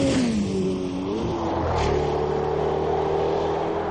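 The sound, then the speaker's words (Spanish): Engines roar as two cars accelerate hard away from a petrol station, a loud continuous revving drone whose pitch shifts early on before settling into a steady, sustained roar. “Los dos coches escapan a toda velocidad de la gasolinera.”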